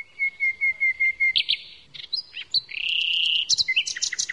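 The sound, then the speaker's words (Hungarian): Small songbirds hidden from view sing a quick run of about seven even, high chirps, then shift into varied, sharper trills and whistles, clear and alone with no voices. “Hát a többi madár is érdekesnek tűnt. Nagyon kellemes a hanguk, szépek, kicsik, és elbújnak. Csak a hangukat lehet hallani.”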